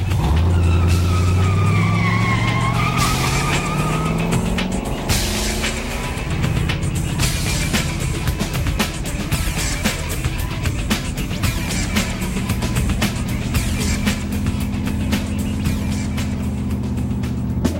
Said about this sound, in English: jumps back into her car and follows the SUV.